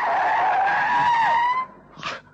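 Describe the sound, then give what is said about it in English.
Loud whooshing rush of a passing car with a whining tone, sustained for about a second and a half before fading, then a short noisy burst. “A little hand waving at me, and then the rush of a car.”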